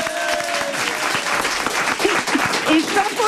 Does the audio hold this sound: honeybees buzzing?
no